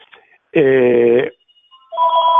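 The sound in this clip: A telephone rings in two loud electronic bursts of harmonic tone separated by a short gap, the second running to the end. Faint talk comes briefly before the first ring.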